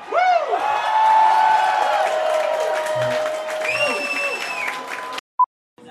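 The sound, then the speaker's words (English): A marching band plays sustained brass-like tones at the highball while a crowd cheers and applauds. The noise is loud and continuous, then cuts off abruptly and is followed by a brief faint beep. “The sound you hear right now is me at the highball with a possibly satanic marching band.”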